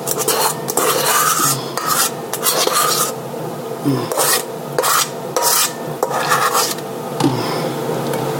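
Scraping and smearing of a spatula spreading the last of the cake batter over the top in a baking pan, a rasping, rubbing texture in many uneven strokes with brief pauses between them, no talk over it.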